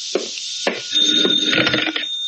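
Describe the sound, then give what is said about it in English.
An old-style telephone rings in a few short bursts, its bright, metallic bell held over a steady high tone, fairly loud and alone. “And then the phone rang. That's the phone, comrade. It's for you.”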